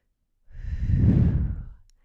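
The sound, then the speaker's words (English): One deep, cleansing breath taken as a calming exercise during guided meditation: a single soft, airy whoosh lasting over a second that swells and then fades, with no talk over it. “And you would take one deep cleansing breath like this.”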